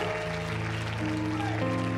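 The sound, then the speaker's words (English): Worship audience clapping along to music. Steady sustained tones carry through the whole stretch over a soft, rough wash of handclaps. “Now go ahead and clap your hands to him”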